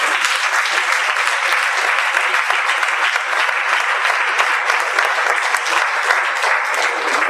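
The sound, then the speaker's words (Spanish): Congregation applause during a church worship service: loud, thick, continuous clapping from many hands that holds an even level for over seven seconds. “Den un fuerte aplauso al Señor.”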